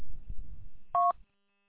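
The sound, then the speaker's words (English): A single short telephone dialing tone beeps once, a clean steady pitch that follows a few low thumps and rumbles and then cuts off into silence. “hold on. I'm on the phone.”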